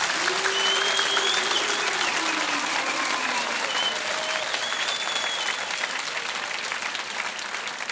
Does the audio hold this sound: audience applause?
yes